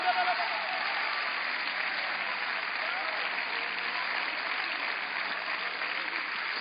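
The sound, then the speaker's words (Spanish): A church audience at a national Hispanic convention applauds and cheers: a dense, steady wash of clapping and crowd noise that holds at an even, loud level for the whole stretch. “¿por qué no le da un aplauso y un grito a Dios?”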